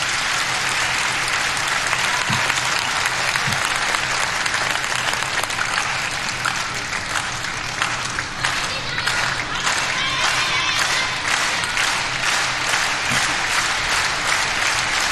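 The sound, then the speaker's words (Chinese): An audience at a table tennis match at a key stage of the third game applauds densely and fast, a loud continuous wash of clapping from a large crowd that never lets up. “现场的观众还是很懂球的啊，知道这个时候来到了第三局关键的比分段，也通过密集的快节奏的掌声来烘托氛围。”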